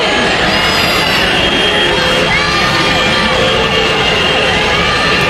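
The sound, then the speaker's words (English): Protesters outside the Tennessee state legislature react to the passage of a new state voter map, making a loud, continuous mass of shouting and cheering with scattered whoops. “That's the sound of a crowd of protesters outside the Tennessee state legislature after they passed a new state voter map.”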